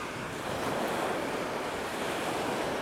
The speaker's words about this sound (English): I hope you can hear the waves hitting the beach and the possibly the wind.